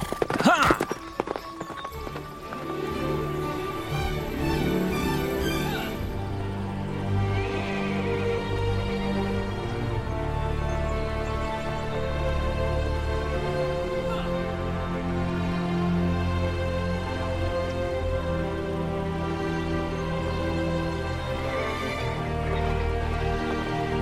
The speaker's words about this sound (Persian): باید بگم اسبات خیلی باهوشه. محض اطلاعت، خودم تمرینشون دادم.